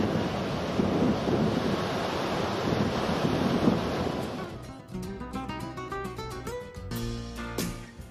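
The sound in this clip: Long, powerful ocean waves roll onto the shore at Sidi Ifni, a spot frequented by surfers. A steady, loud wash of surf mixes with wind rumble, then tuneful music comes in over the last half.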